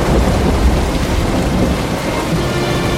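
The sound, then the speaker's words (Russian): Heavy rain outside with thunder: a loud, dense, continuous hiss of downpour over a low, rumbling undertone, steady from start to finish. “На улице дождь.”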